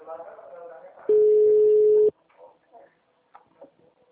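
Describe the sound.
A telephone ringback tone sounds while a call is being placed: one steady, low electronic beep lasting about a second. It comes between stretches of talk and cuts off cleanly, with quieter voices after it.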